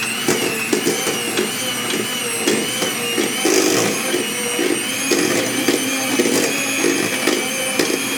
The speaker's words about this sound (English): Okay, I'm gonna start mixing this at first.